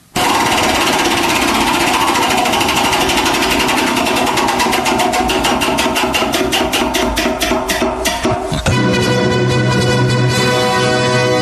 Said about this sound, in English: you got a little physical manual labor to do right now. Spin the wheel.